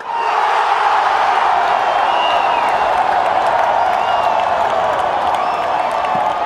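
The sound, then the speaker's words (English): Football crowd roaring at Morumbi Stadium in Brazil during a Brazil versus Bolivia match, a dense, loud, unbroken wash of cheering and shouting voices holding steady throughout. “I went to Morumbi Stadium to record a game between Brazil and Bolivia, and the crowd was insane.”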